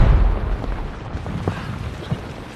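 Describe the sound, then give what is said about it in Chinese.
An explosion blows up a rear escape tunnel, heard as a deep, heavy rumble that starts loud and slowly fades, with a few faint thuds in the tail. “报告，后门地道也被鬼子炸了。”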